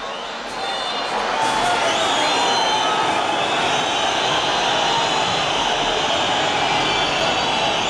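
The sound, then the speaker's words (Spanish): Sporting Gijón fans at El Molinón roar after a home win, a loud and steady crowd noise that swells in within the first second and holds without a break. “El Sporting gana en el Molinón, eso no siempre sucede, pero ha pasado varias veces, alguna vez esta temporada, y el público del Molinón reacciona así.”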